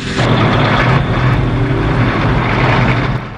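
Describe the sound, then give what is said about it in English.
Deep engine rumble and heavy road roar from two massive container trucks rolling by in the near distance beside a motel car park, loud and steady throughout before easing slightly at the very end. “Two massive container trucks roll by in the near distance.”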